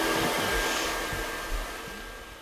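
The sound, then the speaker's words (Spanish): A hair dryer blowing in a steady, loud airy whoosh with a thin whine running through it. It holds level with only a slight fade toward the end, and no voices are heard. “correcto, es un secador. Ah, claro, un secador”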